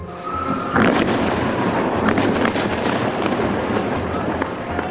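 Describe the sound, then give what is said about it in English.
Explosions from NATO airstrikes on Colonel Gaddafi's compound in Tripoli, Libya: a loud, continuous roar of blasts with sharp cracks that bursts in after a quiet start and holds steady to the end. “NATO strikes hard at Colonel Gaddafi's compound in Tripoli, Libya.”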